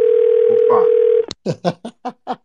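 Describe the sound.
A telephone dial tone holds one steady pitch for about a second, then cuts off and a voice starts speaking in short bursts.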